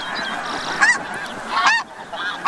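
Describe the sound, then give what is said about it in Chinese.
Snow geese honking at their Arctic breeding grounds: loud, nasal, rising honks break out in irregular bursts of calls, with a few fainter calls between them over a steady background of bird sound. “雪雁一生只忠于一个伴侣，每对雪雁到达之后就必须立刻占据一块筑巢地。”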